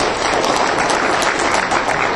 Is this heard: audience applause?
yes